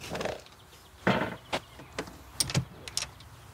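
The door of a rented campsite cabin opens with a few sharp clunks and clicks, then a soft scrape and rattle as it swings. The knocks are spaced irregularly and quiet against a faint hiss.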